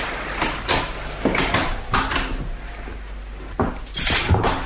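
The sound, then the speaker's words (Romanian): Knocking on an admiral's door: a series of sharp, dull raps in irregular groups over a steady background hiss. “Nu răspunde nimeni. Lasă, lasă că o să bat eu.”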